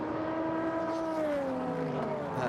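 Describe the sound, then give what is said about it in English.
Race car engine of the number 8 Tower Motorsports GTD car carving through traffic at Petit Le Mans in the 2022 WeatherTech SportsCar Championship. A steady, buzzing harmonic drone slowly sinks in pitch. “Now, Tower Motorsports, that number 8 car that Shea was just talking about, Louis Delatras, is carving his way through traffic”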